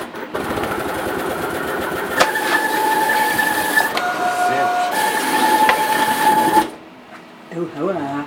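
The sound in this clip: A cutting plotter whirs as it feeds one sheet of paper all the way through to its full length, running at 30 percent of maximum speed in a hackspace. A steady motor whine with a few clicks lasts about six and a half seconds, then stops.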